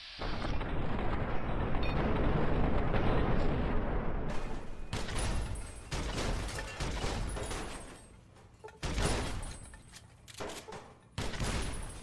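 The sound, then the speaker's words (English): Gunfire and grenade explosions in a video game: a dense, loud barrage of rapid shots and blasts fills the first few seconds, then several separate sharp bursts follow with brief lulls between them. “Boy, I am going through grenades like there is no tomorrow”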